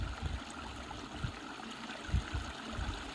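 A small stream flows with a soft, steady watery wash and faint, irregular low gurgles bubbling up every so often, all quiet with no voices.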